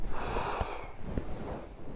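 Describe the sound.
A forceful breath during a kriya breathing exercise, blown out as if extinguishing a candle and followed by an inhale, forms a loud, airy, continuous rush of air that fills the whole moment.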